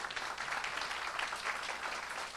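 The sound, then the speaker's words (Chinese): Applause from a church gathering as the women in the audience stand: a steady, continuous patter of many hands clapping, fairly faint and even throughout. “所有女生都起立一下，我们给他们鼓掌好不好？”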